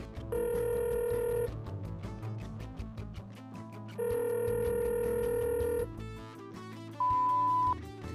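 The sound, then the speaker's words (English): A telephone rings on an outgoing call: two long ringing tones several seconds apart, with a dense, busy background between them, then a brief higher beep near the end. “You want to call him one more time? Yeah, dial him up. Let's call him.”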